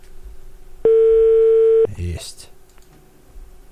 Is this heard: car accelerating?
no